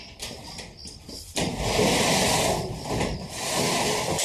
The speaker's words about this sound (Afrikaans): Maak op die garage deur